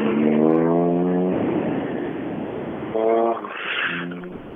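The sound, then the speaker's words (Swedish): A rally car's engine on a forest stage, sounding as a strong buzzing drone with a rich harmonic tone. It surges for over a second, falls back, then swells again briefly before fading. “Här kommer en bil.”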